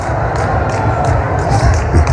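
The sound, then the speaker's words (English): A church audience shouts during a sermon, producing a steady, dense wash of loud crowd noise with no clear pauses across the short stretch. “Ooh, I'm preaching way better than y'all shouting.”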